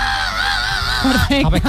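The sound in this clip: A person's voice imitates a heavy metal scream, a harsh, strained sustained yell of about a second that breaks into a few shorter rough vocal bursts.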